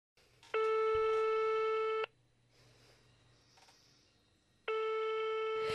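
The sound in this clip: Telephone tone of an incoming call: two long, steady electronic tones, loud and evenly pitched, separated by a quiet pause of a couple of seconds.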